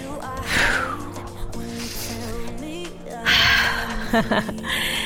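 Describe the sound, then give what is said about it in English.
Deep audible breaths are drawn in through the nose and pushed out through the mouth, a few in a row, each as a soft rushing hiss with some breathy vocal tone. “Take a deep breath through your nose. Exhale out your mouth. Do a few of those that are audible. You can hear them.”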